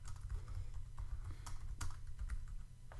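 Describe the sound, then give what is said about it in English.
Fingers type on a computer keyboard in a quick, uneven patter of soft clicks over a steady low hum. “You just typed out a last final category.”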